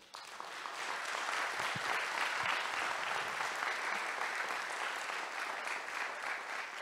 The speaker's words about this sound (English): we just want to give these guys a round of applause